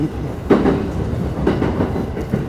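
A train runs toward Oyama Station in Japan with a steady, loud rumble, marked by a few periodic wheel clacks over the rail joints.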